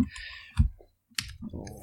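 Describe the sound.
A few sharp computer clicks used to roll digital dice, brief and faint, with a voice talking around them.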